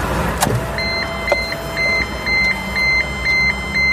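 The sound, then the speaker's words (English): A car's ignition warning chime sounds after the ignition is switched on: a regular series of short, high-pitched beeps repeating at an even pace, with two sharp clicks before them and a low hum of the car underneath. “he switches on the car ignition, and there's that annoying beep that he doesn't understand.”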